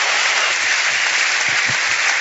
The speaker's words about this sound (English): They clapped over your punch.